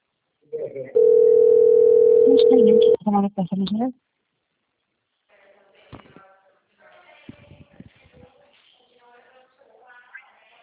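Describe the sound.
A telephone dial tone hums as a loud, steady single pitch for about two seconds, then breaks off into short clicks, followed by voices talking.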